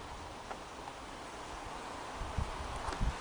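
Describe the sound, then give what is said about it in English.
Wind rising among trees, a soft, steady rustle of leaves that swells slightly toward the end, with a few low gusty buffets near the close. “The wind starts to pick up as we stand now amidst the trees.”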